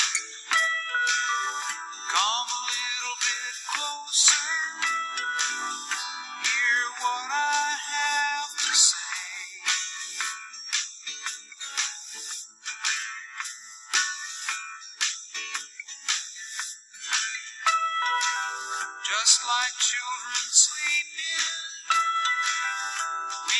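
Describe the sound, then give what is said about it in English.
A short instrumental musical interlude plays bright, high, chiming melodic tones in a steady, lively run, with no voices. “Let's just have a little musical interlude.”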